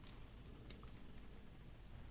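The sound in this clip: A pen used for everyday writing clicks faintly a few times, sharp, light snaps at irregular spacing over a soft background hiss.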